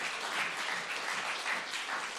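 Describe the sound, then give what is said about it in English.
A church audience gives a clap offering to Jesus during an evening service, steady dense handclapping with no voices over it. “Can you give a clap offering tonight to Jesus?”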